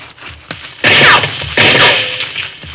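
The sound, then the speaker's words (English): Two loud rifle shots crack out in a radio western drama, each a sudden harsh burst trailing off in a lingering noisy tail, a fainter click coming just before the first and no voices heard. “Who's ever shooting that rifle sure knows what he's doing.”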